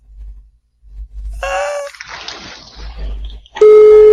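A telephone ringback tone sounds during an outgoing call. A steady, loud, buzzing tone starts near the end, after breathy gasps and groaning vocal sounds.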